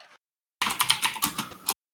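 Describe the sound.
Typing on a computer keyboard: a dense burst of rapid keystrokes lasting about a second, preceded by a short faint sound, with no voices.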